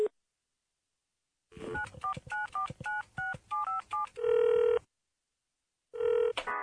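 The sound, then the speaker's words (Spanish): A telephone number is dialed as a quick series of touch-tone beeps, followed by longer steady phone tones with silent gaps between them. “voy a llamar a José.”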